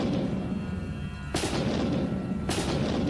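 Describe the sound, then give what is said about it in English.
Gunfire from soldiers firing their guns at colonists in the Boston Massacre: two sharp, booming shots stand out over a constant noisy background, the first about midway and the second a second later. “They were joined by others, and the soldiers became frightened. They fired their guns.”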